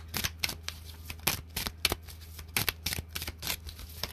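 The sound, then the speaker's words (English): Tarot cards flip out of a deck one after another, a series of crisp, papery flicks and snaps of varying loudness against a quiet background. “One card flips out, another one,”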